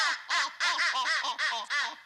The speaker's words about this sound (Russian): Скоро, скоро, закричали утки.